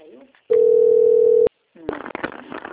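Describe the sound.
A telephone dial tone sounds after a dropped call. The steady, even tone holds for about a second and cuts off abruptly, followed by noisy line sound and faint voice-like sounds.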